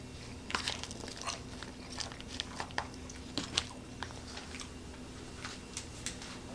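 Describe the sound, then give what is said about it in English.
Biting and chewing of a creamy cheese dish that is slightly dried out and chewy: many soft, sticky clicks and moist smacks in an uneven rhythm, fairly faint over a low steady background, with no talking. “Let me taste a little more. Let me get some of the bottom right here.”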